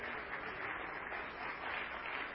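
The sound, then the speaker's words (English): An audience claps hands in praise of the Lord, a faint but continuous, even patter of many hands with no voices standing out. “Let's clap our hands again for the Lord.”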